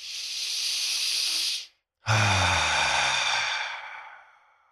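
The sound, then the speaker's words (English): Deep full circular belly breath, a long airy inhale hiss that cuts off, a brief silence, then a louder, rough exhale with a low throaty tone that slowly fades away. “And I want everybody that's watching us on YouTube, watch my shoulders when I breathe. So I'm going to do a full circular breath.”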